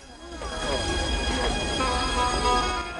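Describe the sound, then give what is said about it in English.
Whirring of a toy model train running around its track in a toy shop, a steady rumbling hum layered with thin, high squeaky tones that continues without a break. “In a toy shop, a model train whirs around a track.”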